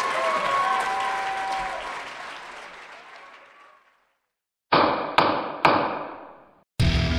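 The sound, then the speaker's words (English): A gavel bangs four times: three quick, sharp knocks, then a pause and a fourth strike, each with a short ringing decay. Before the knocks, a broad wash of noise fades to silence. “This is the sound of the gavel.”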